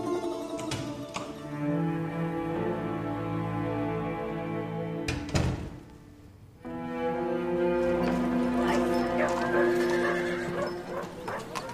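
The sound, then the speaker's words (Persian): Hooves of Siavash's horse clip-clopping as it is brought to him in an audio drama, with loud whinnying neighs and snorts over a sustained tonal background. “کاروان سرادار اسب سیاوشو براش میاره.”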